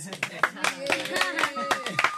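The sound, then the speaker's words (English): Scattered claps from a class applauding a student for coming top in the end-of-year results, a few sharp hand claps spaced irregularly under people talking. “I think we should all give Jen a big clap for coming top this year.”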